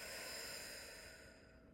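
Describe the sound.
A long, steady breath of air, loud at first and then tapering off over under two seconds, heard alone with no talking.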